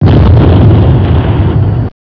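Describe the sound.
A bomb explodes in a video game as a loud, dense, low rumbling blast that holds steady for nearly two seconds before cutting off abruptly.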